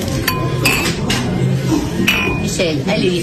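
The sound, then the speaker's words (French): Glasses clink in a toast over red wine, several bright, sharp clinks with short ringing tones spread irregularly, over low voices underneath. “Ah, les bandes de canailles qui font claquer les verres tout le temps.”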